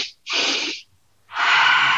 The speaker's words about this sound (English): So it's like the two breaths through the nose.